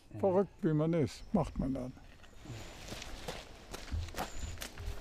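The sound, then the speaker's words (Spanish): Footsteps of an 81-year-old climbing a tall flight of 177 stairs, trotting up two at a time while also pulling with his arms. A voice comes first, then many quick, light, uneven steps patter along. “Allá vamos. Sube los escalones de 2 en 2, usando también sus brazos.”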